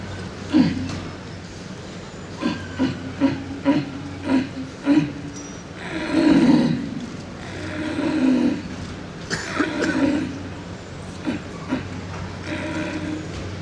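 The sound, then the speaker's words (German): A hunter imitates the roar of a red deer stag with a deer call at a calling contest, portraying a tired stag at the end of the rut lying down. A string of short, low grunts gives way to a few longer, drawn-out roars. “Sitzender Hirsch am Ende der Brumm.”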